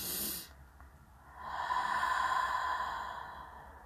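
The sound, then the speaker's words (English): A slow, deep breath taken during a guided meditation: a soft, drawn-out rush of air that swells over about two seconds and then fades, alone with no talk. “So you can close your eyes and take a deep breath.”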